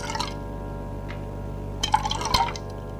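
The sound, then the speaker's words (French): Honey-flavoured wine poured from a bottle: a short liquid splash at the start, then a longer gurgling, trickling pour with glassy clinks near the end, all fairly quiet. “Prends la bouteille et verse.”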